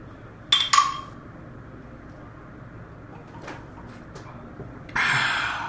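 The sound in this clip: Glasses clinking in a toast: two bright, ringing chinks in quick succession, followed by a quiet stretch and then a steady hiss.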